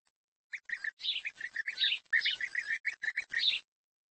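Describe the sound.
Bird chicks near a nest give rapid, high-pitched chirps in quick bursts. After a brief silence the chirping runs on in a busy string of short calls, then stops abruptly.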